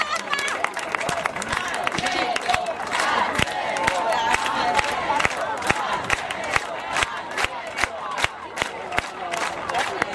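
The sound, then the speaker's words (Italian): An audience applauds parents being honoured at an event, with many sharp claps running steadily throughout amid crowd noise and voices. “Quindi a loro, a questi genitori speciali, un applauso fortissimo, grazie.”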